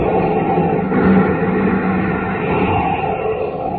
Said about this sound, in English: As roaring rockets blast off to distant planets and far-flung stars